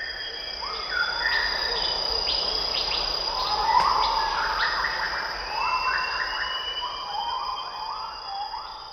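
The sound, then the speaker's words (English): Rainforest ambience in Sumatra, a dense chorus of insects and animal calls. A steady high buzz sits under layered whistling and trilling calls that overlap and repeat across the whole stretch, with no voices. “He shows us another spectrogram. This one he recorded in the rainforests of Sumatra.”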